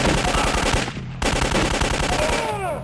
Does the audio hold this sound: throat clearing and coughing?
no